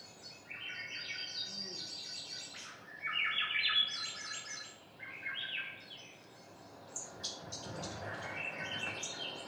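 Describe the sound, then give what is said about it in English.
Swainson's thrush song: several flute-like, upward-spiraling phrases follow one another in succession over a steady background hiss. “These are Swainson thrushes. These are the ones I was showing you earlier. They're really intense.”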